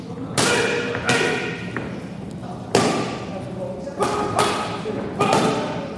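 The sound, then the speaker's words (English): Boxing punches hit training paddles at a boxing training camp, several loud, sharp smacks at uneven intervals, each trailing off in a short ringing decay. “if you're listening to the audio, you probably hear that the tempo on the paddles is starting to go up a little bit.”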